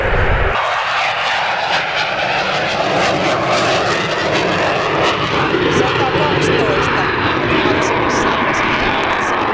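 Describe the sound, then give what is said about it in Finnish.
Roaring aircraft engines of a plane taking off over Rovaniemi, a loud, steady drone that fills the whole stretch while people talk over it. “Onko tuo nousuun lähtö ääntä”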